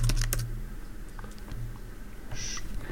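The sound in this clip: Typing on a computer keyboard: a few sharp clicks at the start, then sparse, faint taps over a low background hiss.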